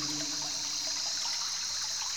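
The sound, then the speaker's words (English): Rushing river water with white caps, a constant unbroken hiss of flowing current at moderate loudness, with no voices. “Look now out over the river Notice the rushing water underneath.”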